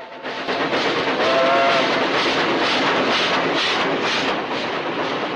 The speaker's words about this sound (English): The locomotive builds up speed and is soon making its way along the new track, cutting through the countryside.